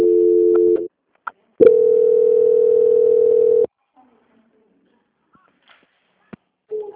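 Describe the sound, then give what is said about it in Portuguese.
Telephone transfer tones during a bank call: a steady tone, a short gap with a click, then a longer unbroken tone of about two seconds. Near-silence with faint clicks follows before another tone starts at the end. “Agora eu vou transferir essa ligação para a parte da auditoria. Peço que a senhora continue na linha.”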